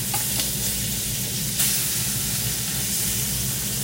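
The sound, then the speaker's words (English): An egg fries in a pan with a steady, loud hissing sizzle, broken midway by a brief, sharper burst of crackle. “time to flip the egg over. Well, at least for me. I like the egg over medium.”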